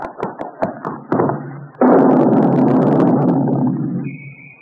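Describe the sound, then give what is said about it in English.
A radio-drama sound effect of a running man exploding: a series of quick thumps gives way to a loud, broad blast that rumbles and slowly decays, then a steady high tone sets in. “He fell and he exploded. There's nothing left of him. Just that big hole in the ground.”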